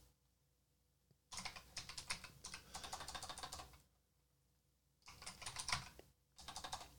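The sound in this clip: Fingers type on a computer keyboard in faint, rapid bursts of keystrokes. A long run is followed by a pause, then a shorter burst and a final brief flurry.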